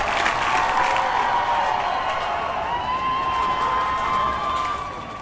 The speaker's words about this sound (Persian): به به به به به به به به، دست بزن، دست بزن، دست بزن.